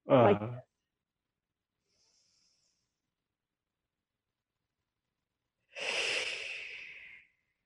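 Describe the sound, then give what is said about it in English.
A single deep breath demonstrated for relaxation, a soft airy rush lasting about a second and a half after a long silence, preceded by a brief burst of speech. “I'll just demonstrate a deep breath.”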